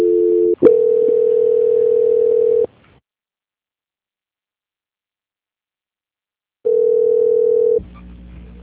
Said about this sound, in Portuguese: Transferindo ligação.